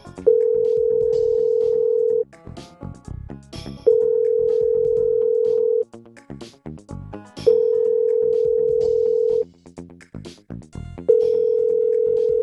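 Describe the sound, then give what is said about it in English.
Several telephones ringing: a loud, steady electronic tone sounds in four long bursts of about two seconds each, and a busy mix of other ringing and clicking fills the pauses between them. “A lot of ringing phones.”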